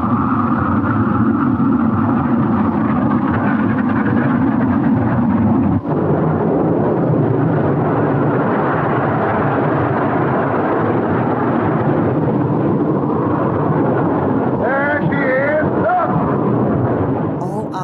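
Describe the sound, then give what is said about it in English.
Wind and waves roar around a storm-tossed ship at sea in a loud, continuous, low rumbling surge with a brief break near the middle, and wavering, whistling gusts come through toward the end. “Storm-tossed ship.”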